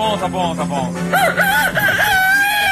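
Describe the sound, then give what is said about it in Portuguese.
A man's voice imitates a rooster crowing, giving one drawn-out, wavering call after a few short vocal sounds. It is loud and alone, with no other sounds around it. “Ele tá fazendo galo também.”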